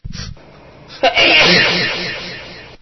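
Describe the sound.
A single loud sneeze, with a quick sharp intake of breath just before the forceful, breathy burst, which trails off over about a second and a half.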